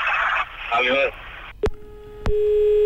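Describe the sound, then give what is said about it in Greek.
A phone line going dead after a caller hangs up: brief speech, then a sharp click and a steady low telephone tone, a second click, and the tone resuming continuously. “Έχει κλείσει εδώ, παρακαλώ. Και εδώ έχει κλείσει, δεν είχε υπομονή.”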